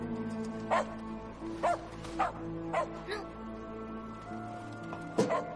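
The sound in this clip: A dog barking several times, short sharp barks spaced irregularly, fairly faint over a quiet background.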